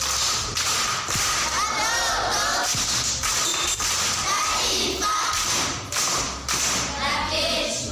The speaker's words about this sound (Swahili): Makofi kwa Devo.